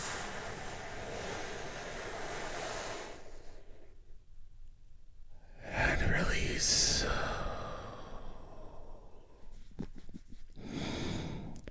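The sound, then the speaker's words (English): A big, deep breath taken during a guided relaxation pause: a long, soft, breathy rush swells mid-clip, then eases away over a quiet, hushed background. “Take a big, deep, healing breath with me right now.”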